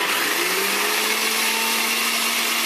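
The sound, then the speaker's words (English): A blender whirs steadily as it briefly blends salad dressing ingredients with dry mustard powder, a loud, even motor drone with a slight rise in pitch near the start that runs through the whole clip. “Put your lid on and just blend this briefly, just for like 10 seconds.”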